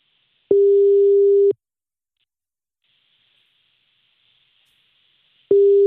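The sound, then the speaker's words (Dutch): Telephone ringback tone while a call is placed: two steady mid-pitched beeps, each about a second long, separated by a long gap with faint hiss. “Ja, we gaan nu bellen. Oh, we gaan nu je vader bellen.”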